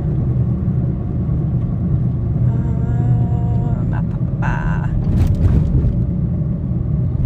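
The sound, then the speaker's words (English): Steady low engine and road rumble from a car being driven through a city, holding an even level throughout with faint higher tones drifting in near the middle. “Sorry, I'm driving right now.”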